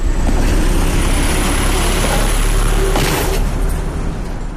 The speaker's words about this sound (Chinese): 不少石子都从柏油路面脱落，产生了大量网状的裂缝和很多形状不规则的坑，车辆压过大坑产生了很大的噪声。